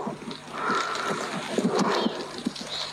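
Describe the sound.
Llamas walk through snow during a snowfall in Iscayuno, making many soft, irregular footfalls in a continuous rustling bed of sound.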